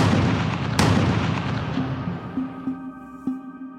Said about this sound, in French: le berger reçoit deux coups de chevrotine dans le dos avant d'être achevé d'un tir en plein visage.